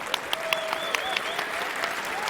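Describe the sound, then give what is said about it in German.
An audience applauds a prize giveaway on stage, steady, even clapping at moderate volume with a few sharper individual claps standing out. “Also das ist mindestens ein 10-Punkte-Applaus wert.”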